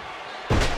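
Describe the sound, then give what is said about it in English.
A wrestler hits the mat from a belly-to-belly power slam in a tag-team wrestling match, a single sudden heavy thud that jumps out of steady background noise, which stays louder afterward. “Belly to belly for power slam, excuse me, by Hawk.”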